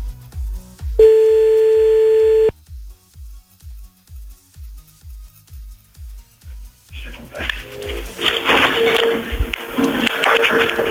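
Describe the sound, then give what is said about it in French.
Telephone line sounds as a call is placed to a listener: a steady dial tone, then a long run of regular low pulses on the line, ending in a loud rush of noisy line hiss. “on va appeler des nouveaux, hein, des numéros que vous nous avez envoyés sur le mail de Toff”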